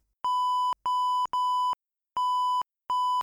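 Telephone tones after dialling a number: five steady, clean beeps of about half a second each, separated by uneven gaps, with no talk over them.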